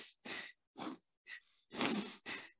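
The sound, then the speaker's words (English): Rapid breath-of-fire breathing, quick forceful inhales and exhales through the nose as in Kundalini yoga practice, heard as six short, sharp bursts of airy rushing in a steady, fast rhythm with brief silences between. “What we're going to practice is doing it through the nose. So it works in a way where you inhale and exhale quickly.”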